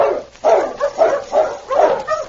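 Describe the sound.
A sled dog team barks and yelps in several loud, overlapping bursts, a quick uneven rhythm of mid-pitched barks with whining edges, without any talk.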